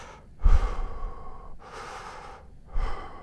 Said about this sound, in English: Just breathe. Yeah, like Lamaze. Is it Lamaze? Pretty sure it's Lamaze.